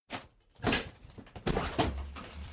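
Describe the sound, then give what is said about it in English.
Wooden crates being pried open, heard as a few short scraping, creaking bursts and dull knocks, fairly quiet with pauses between them. “It's a crate full of... dirt. Let me open the rest of these.”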